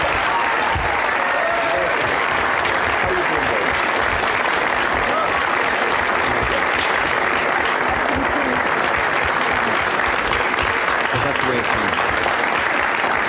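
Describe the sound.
An audience welcomes Maureen O'Hara with loud, sustained applause: dense, continuous clapping that holds steady throughout without pause.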